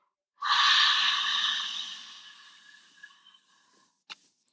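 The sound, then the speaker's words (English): Deep breath exhaled during a guided breathing exercise: one long, steady, airy rush that starts strong and slowly fades away over about three seconds, alone and quiet. “Exhale.”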